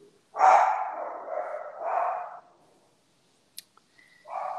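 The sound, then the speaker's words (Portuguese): A dog gives a few drawn-out, moderately loud barks in quick succession. After a quiet pause with a couple of small clicks, it lets out one more bark. “Quem é que latiu?”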